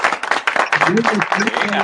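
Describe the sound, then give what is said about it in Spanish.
Applause welcomes a political representative as he is introduced. Scattered, uneven claps come in irregular bursts while a voice keeps talking over them. “Un aplauso para Ángel Matos.”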